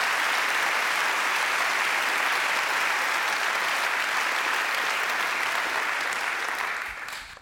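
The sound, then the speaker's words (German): Audience applause follows a political speech: dense, steady clapping holds at an even level for several seconds and then tapers off at the end. “Applaus”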